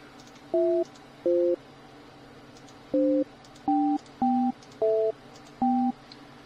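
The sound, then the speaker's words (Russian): Seven short two-tone telephone beeps sound as a number is dialed, each with a different pitch pair, crisp and fairly loud, spaced in an uneven rhythm with no talk. “Да, ну-ка еще раз давай. Набираю.”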